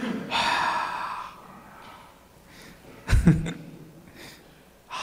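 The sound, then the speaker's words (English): Breathy exhales and snort-like puffs as members of a church audience breathe into a neighbour's nostrils during a sermon: a long breathy rush early on, a sharp low burst near the middle, then a fainter puff at the end. “And go close to their faith, and now you breathe into their nostrils.”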